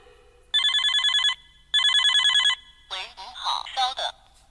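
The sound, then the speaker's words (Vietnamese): A latest-model Nokia mobile phone rings in two loud, bright electronic trilling bursts, followed by people talking. “Điện thoại di động. Giỏi quá. Nokia đời cuối.”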